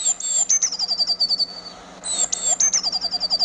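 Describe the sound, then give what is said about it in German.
Recorded garden birdsong plays from a sound book's built-in speaker: two bright runs of rapid, high chirps and trills separated by a short pause, over a faint steady hum. “Vögel in unserem Garten besitzt eine Soundleiste mit einem integrierten Lautsprecher, aus dem bei Knopfdruck die jeweiligen Vogelstimmen ertönen”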